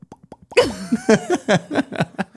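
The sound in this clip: Mouth plops imitate a goldfish opening and closing its mouth: a few soft, quick pops, followed by voiced, chattering sounds.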